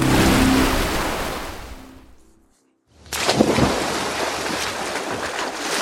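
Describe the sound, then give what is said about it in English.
Water churning and splashing as someone swims laps in a backyard pool, a broad rushing wash that briefly drops to near silence before steady splashing resumes. “Gwen swims with dogged determination in the pool in the Avalon family backyard.”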